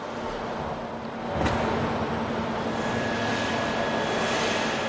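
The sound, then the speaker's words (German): Steady industrial background noise of an Audi car factory hall in Ingolstadt, recorded as stereo ambience: a continuous broad rumble with faint sustained machine tones and a single short knock early on. “Hier eine Stereo-Atmo, Audi-Halle, einfach der Grundlärm.”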